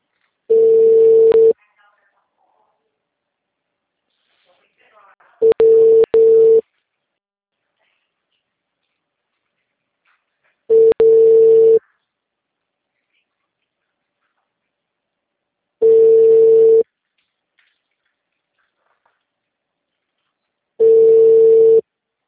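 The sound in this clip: Ringback tone of a telephone ringing unanswered on a call: five long, steady, mid-pitched tones, each lasting over a second and repeating about every five seconds, with silence between them.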